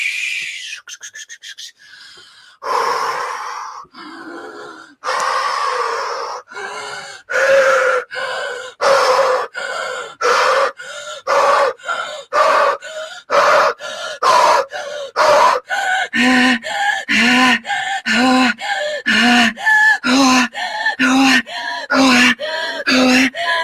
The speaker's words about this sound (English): activate the breath that's going to allow me to tap in the frequencies needed for my beautiful friend Anok to come in my body. My breath will in no way affect you whatsoever. My breath stays in my field, in my bubble, activating now.